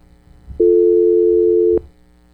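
A telephone tone sounds after a caller's line drops during a call-in: a single steady, mid-pitched tone lasting just over a second, loud and alone, ending with a faint click.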